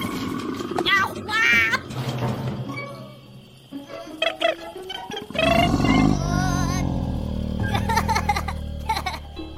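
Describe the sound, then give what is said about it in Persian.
A creature's roar bursts out loudly about halfway through and holds for several seconds as a rough, harmonic growl. Voices talk before it, and tones carry on beneath it. “یعنی این صدای قرش مال گلا بود.”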